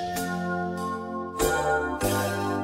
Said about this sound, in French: Je crois qu'on sonne